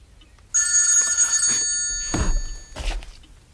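A telephone rings with a steady, bright electronic bell tone for about a second and a half, then stops. A couple of dull thumps follow.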